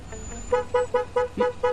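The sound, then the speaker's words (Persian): A car horn honked by a friend, a quick run of short, even-pitched toots. The first couple are faint and the rest are louder and evenly spaced. “ای نگاه کنید این ماشین یه فرمون نامرئی داره. شوخی کردم، دوستم نیت داره اینجا بوق میزنه.”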